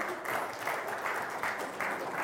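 Audience applause at a ceremony, soft and clapping in a steady, regular pulse of repeating bursts that keeps an even tempo throughout.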